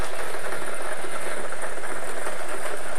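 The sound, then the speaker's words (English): Numbered balls tumble inside a lottery draw machine for a Daily Millions game, giving a loud, steady, dense rattling clatter that runs unbroken and alone throughout. “Let's get these balls spinning and time to make you a millionaire.”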